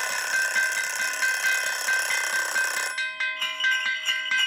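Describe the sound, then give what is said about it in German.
A kitchen timer rings in a rural kitchen in central France: bright, sustained metallic ringing that changes partway into rapid repeated pulses, loud and alone. “Ja, wenn Ihre Schaltuhr die letzte Runde einläutet, müssen Sie in Kampfbereitschaft sein.”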